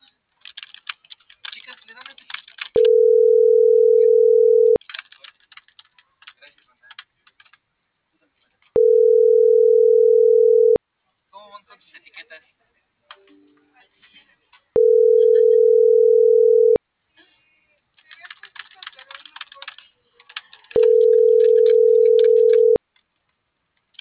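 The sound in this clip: A telephone busy signal sounds as four steady, loud, evenly spaced tones, each about two seconds long, with keyboard typing clicking in the gaps between them.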